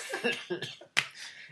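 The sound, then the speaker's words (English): A few harsh coughs from people in a group, sharp bursts with brief gaps between them. “Sorry. We're all coughing and as well, yeah, because we all live in London and go to uni, so statistically we're pretty much dying.”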